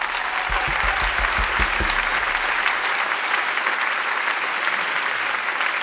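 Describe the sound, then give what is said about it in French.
Concert audience applauding synthesizer musician Nicky Green, a dense, steady wash of clapping that holds at an even level throughout, with a few low thumps near the start. “Faites du bruit pour Nicky Green, s'il vous plaît.”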